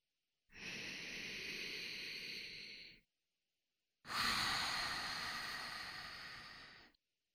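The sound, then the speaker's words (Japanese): A person takes deep breaths: two long, airy breaths of a few seconds each, separated by a short silence. The second breath is louder and stronger than the first. “やばい。深呼吸。”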